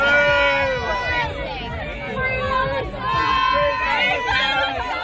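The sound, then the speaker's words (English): Protesters shouting at Prime Minister Christopher Luxon at Auckland's Big Gay Out festival, a loud continuous mass of many raised voices yelling and chanting together without pause. “Just hours later, he was surrounded by protesters, unhappy with political decisions he has already made.”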